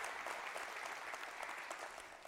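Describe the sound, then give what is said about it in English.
Quiet, polite applause from a live audience thanking online viewers: a thin, even scatter of claps held for about two seconds before tapering slightly at the end. “Let's give our online audience a hand right now. Thank them for clicking online.”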